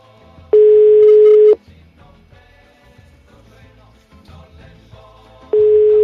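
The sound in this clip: A telephone rings with the caller-side ringback tone, a steady single-pitch tone lasting about a second, then a long gap before it starts again, with faint background sounds in between.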